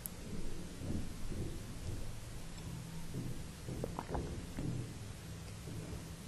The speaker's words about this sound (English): allow yourself to appreciate the beauty of the storm.